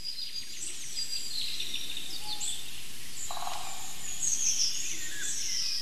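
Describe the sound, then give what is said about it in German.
A golden oriole sings virtuosically: bright, high chirps and whistled phrases recur throughout over a constant background hiss. “Er hält den Schnabel, weil der Pirol so wunderbar virtuos singt, muss man schon sagen.”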